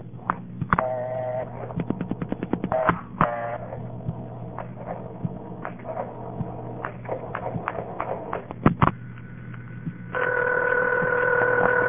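A telephone number dialed for an outside line, starting with a nine: short touch-tone bursts and many sharp clicks over a constant low mains hum, ending in a sustained steady tone.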